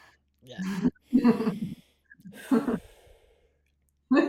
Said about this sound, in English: That's a good breath.